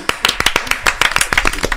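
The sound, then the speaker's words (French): Handclapping from an audience at a French-speaking gathering: a few people clap in sharp, uneven slaps through the short burst, fairly loud, with some voices mixed in. “Applaudissez Coulodo s'il vous plaît.”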